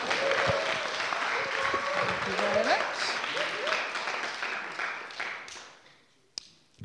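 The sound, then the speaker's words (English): An audience applauds to welcome four speakers to the stage. The dense clapping holds strong, then fades away, and a single sharp tap follows near the end. “So let's put our hands together for our four speakers as we welcome Vic up to the stage.”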